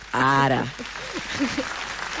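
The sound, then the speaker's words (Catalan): An applause sound effect plays in a studio. A voice is heard briefly first, then soft, continuous clapping follows. “Vinga, aplausos, busca els aplaudiments, sisplau. Busca els aplaudiments.”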